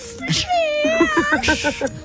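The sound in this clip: A person imitates a cat's meow with a voice that makes wavering, whiny mewing sounds, followed by a few short, choppy vocal yelps.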